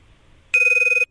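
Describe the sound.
A telephone rings on an outgoing call during a live election-day news report: a single bright, trilling burst about half a second long, with a rapid, even warble. It sounds alone, with no talking.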